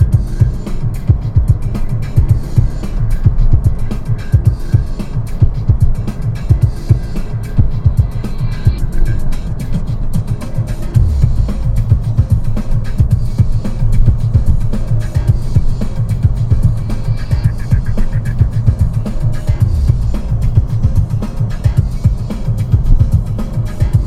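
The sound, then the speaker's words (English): Car engine pulling around a corner under acceleration after a double-clutch downshift into second gear, heard as a steady, low throbbing rumble that holds evenly from start to end, with no voices. “Short shifting from sixth to fourth down to third. Let's take second gear, double clutch. Pull it around the corner. Give me some acceleration.”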